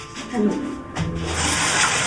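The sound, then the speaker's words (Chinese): A dirty cloth is rinsed under running tap water, giving a steady splashing wash that holds throughout and swells slightly toward the end. “我让你洗手，你怎么洗上抹布了？ 这抹布有点脏，我给他投一下。”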